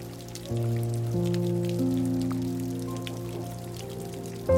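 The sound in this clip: Steady patter of rain runs beneath a sustained, layered musical drone of held tones that swells in stages. No voices are heard.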